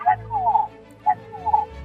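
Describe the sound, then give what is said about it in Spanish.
Hen clucking: a few short, tonal clucks in an uneven rhythm over a steady low hum. “Ahí está. Es una gallina hablando, creo.”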